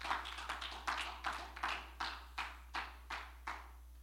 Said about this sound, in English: Let's clap our hands, continue to clap our hands to the Lord.